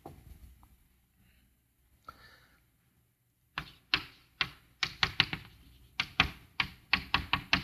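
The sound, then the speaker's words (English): Writing on a board: after a quiet stretch with a few faint ticks, many sharp taps and clicks follow in quick, uneven bursts, like strokes landing on a hard surface. “let me put it on the board like this.”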